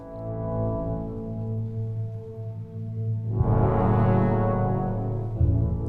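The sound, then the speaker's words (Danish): Energetic orchestral march theme opening a symphony's first movement, played in unison by eight horns: sustained, deep, brassy tones that swell louder midway and stay full and blaring to the end. “den indledes meget energisk med et marchtema, tema for otte horn, et unisont tema, som ligesom øh, skildrer jordens tilblivelse.”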